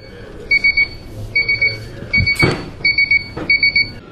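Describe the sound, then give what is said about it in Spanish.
A resident's call button at a care facility for people with spinal cord injuries rings as a loud electronic alarm. It gives repeated bursts of three quick, high two-tone beeps, about five bursts in a row, over faint background noise. “Esto es lo que ocurre cuando un residente de la Fundación Lesionada Medular aprieta el botón de la llamada y...”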